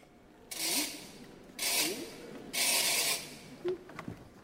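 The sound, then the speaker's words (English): Rewinding of the clockwork mechanism of Olympia, the mechanical doll in Offenbach's The Tales of Hoffmann: three rasping, ratcheting bursts of noise, the last one longest, followed by a few short mechanical clicks. “And she collapses. Crash. So they have to rewind the mechanism.”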